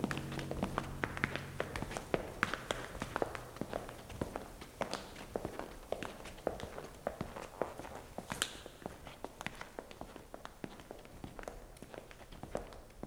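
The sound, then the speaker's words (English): Footsteps of people walking: a long run of many quick, light taps and scuffs at a steady pace, fairly faint throughout. “Man, so what, are we walking back to JFK?”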